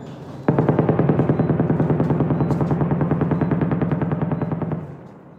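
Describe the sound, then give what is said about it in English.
Sustained rapid automatic gunfire during intense fighting in southern Gaza bursts in abruptly and rattles on as a dense, regular stream of sharp cracks for about four seconds, then tails off. “It's a very intensive shelling going around me.”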